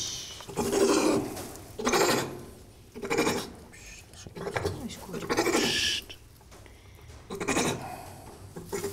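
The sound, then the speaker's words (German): A kangaroo grumbling while held for eye cream treatment, giving several short, rough bursts of sound separated by brief quieter gaps. “Also Alice meckert immer ein bisschen, das ist für so ein Känguru natürlich doof, festgehalten zu werden”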